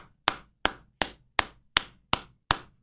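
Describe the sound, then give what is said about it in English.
Seven crisp, sharp hand claps in a slow, even rhythm, each clap isolated with quiet between, from a single person clapping alone. “And if you are in your car and you want to join me, let's just clap it up right now.”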